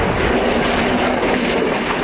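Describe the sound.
A train running on rails gives a loud, continuous rumble with a dense rattling texture, steady throughout with no breaks and no voices.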